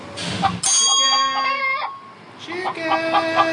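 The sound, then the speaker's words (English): An agitated chicken squawks and clucks loudly in several sharp, tonal bursts, with someone talking over it. “Chicken, come on, chicken, no.”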